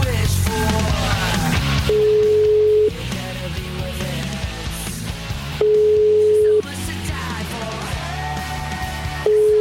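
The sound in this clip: Telephone ringback tones while an outgoing call is placed, steady one-second beeps at an even mid pitch, repeating three times over background music.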